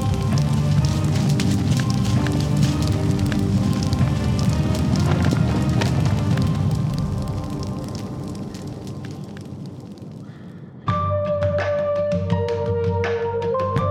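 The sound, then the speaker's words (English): Dense crackling fire from a tent burning in an audio drama effect, steady and loud for about seven seconds, then softer; near the end a sustained tonal layer joins the crackle. “Shit, he means the tent is on fire! Fall back!”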